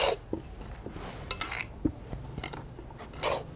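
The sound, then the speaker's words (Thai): Dry plant compost materials being mixed together by hand, with faint scattered rustles and a few soft clicks and crunches spread irregularly through the mix. “โอเคงั้นเราลงมือทำกันเลยครับว่าเราทำไงเราเอาก็คือเอามากองรวมกันใช่ไหมครับตามสูตรที่เรากำหนดไว้เนาะ ใช่ค่ะ แล้วก็ คลุกเคล้าเลยค่ะคลุกให้เข้ากันก่อนแล้วเดี๋ยวเราก็ราดน้ำค่ะ”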